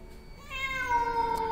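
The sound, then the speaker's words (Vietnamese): A black cat meows loudly in heavy pouring rain, giving one long, drawn-out, wailing meow with rich harmonics that swells and holds to the end, with no talking. “trong cái màn mưa trắng xóa ấy, bỗng dưng có tiếng mèo kêu ngoao ngoao phát ra.”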